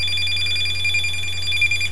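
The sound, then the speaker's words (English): A phone ringtone rings: a steady, high, rapidly pulsing electronic tone held for about two seconds over a low constant hum, with no talk. “Why did the ringtone just change? That's so creepy.”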